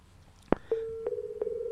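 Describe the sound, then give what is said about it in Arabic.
Telephone line tone after a call is cut off: a sharp click, then a steady mid-pitched hum that continues alone and fairly quietly, broken by a few faint clicks. “انقطع الهاتف ولا قاعد باه احنا نجاوبوها”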